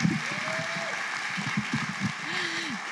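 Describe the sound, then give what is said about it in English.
Audience applause welcoming a speaker to the stage: steady, moderately loud clapping with a few cheering voices rising above it. “But can we give her a Vail welcome today? Can we welcome Lori Wilhite to the stage right now?”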